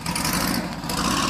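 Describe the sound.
Voiced imitation of a classic Mini's engine: a loud, steady, buzzy rumble that holds continuously without pauses.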